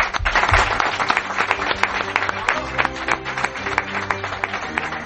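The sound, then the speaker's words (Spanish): Applause from an audience of listeners: dense, continuous clapping that fills the whole clip at a steady, fairly loud level with many overlapping sharp claps. “Recibir el aplauso de nuestros oyentes.”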